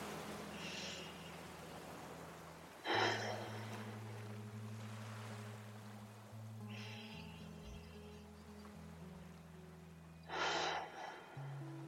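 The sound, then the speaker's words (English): Deep breaths in and out, taken slowly before a bedtime reading, come as a few soft, airy bursts of rushing breath over quiet, low, sustained musical tones, with no talking. “It is our habit to take three deep breaths before we begin reading. So I invite you to join me. Here's one.”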